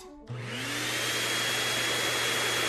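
A vacuum cleaner switches on with a click and a rising whir, then settles into a loud, steady roar with a constant hum beneath.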